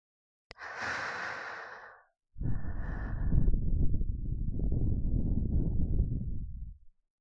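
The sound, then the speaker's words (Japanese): Gentle, breathy blowing into an ear as a finishing touch: two long, soft puffs, the first shorter and airy, the second longer and lower, with no voice. “じゃあ、仕上げのお耳ふうふうするね。”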